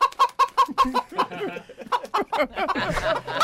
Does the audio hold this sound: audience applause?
no